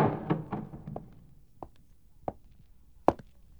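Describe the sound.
Faint knocking on a door comes as a few dull, irregularly spaced thuds, the last one sharper than the rest.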